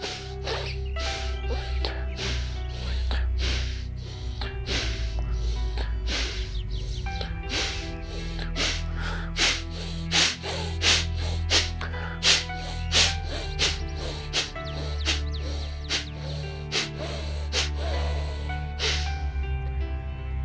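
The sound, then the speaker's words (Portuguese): Rapid, deep breaths drawn in through the nose during a guided breathing exercise, repeated many times as quick, soft, even sniffs over a low, steady musical drone. “volta a respirar pelo nariz, profundo e rápido, várias vezes. Vem, inspira, respira.”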